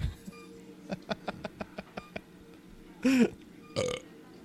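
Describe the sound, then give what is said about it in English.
Two deep, throaty burps, the first longer with a wavering pitch and the second shorter, following a quick run of short rhythmic pulses. “Burp.”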